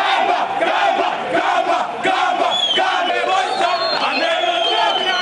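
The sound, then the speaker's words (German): Street celebration in Harare: a loud, packed crowd cheers and chants without pause, with many overlapping shrill and excited voices. “So klingt es momentan in der Straße in Harare.”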